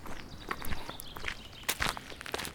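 Footsteps head downhill through a forest, a fairly quiet, steady run of many crunching, rustling steps on the ground, with no talking.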